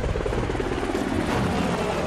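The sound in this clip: Police helicopters overhead produce a loud, continuous rotor whir and roar, a dense, unbroken wash of noise that stays steady from start to finish.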